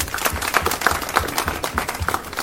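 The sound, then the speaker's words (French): Applause from a crowd at an outdoor award ceremony for a trophy presentation in ministry gardens, heard as steady, fairly loud clapping with irregular bursts of hand claps and no clear voices over it. “C'est avec des applaudissements que la cérémonie de présentation du trophée a débuté dans les jardins du ministère de la Jeunesse et des Sports à Niamey.”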